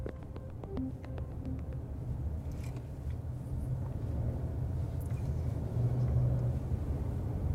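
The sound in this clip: Steady low engine rumble of a car driving on the way to Tel Aviv, Israel, a continuous drone and road hum that holds even throughout and swells slightly toward the end, with no voices.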